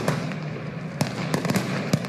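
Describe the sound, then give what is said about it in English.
Gunfire during street protests in Almaty, Kazakhstan, where the military was shooting at protesters: several sharp, scattered cracks at irregular intervals over a steady background rumble, with no voices. “Gunfire captured on video by the Russian TASS news agency”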